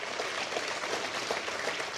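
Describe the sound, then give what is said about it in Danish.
Applause fills a space centre after a successful launch of European navigation satellites on a Russian-supplied rocket. The clapping is fairly faint and continuous, a dense patter without clear breaks. “Tilbage i rumcenteret bliver der klappet over den succesfulde opsendelse.”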